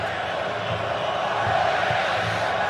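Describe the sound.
Moroccan football fans cheering in a stadium during a match, a constant dense roar of many voices that holds steady and swells slightly near the middle.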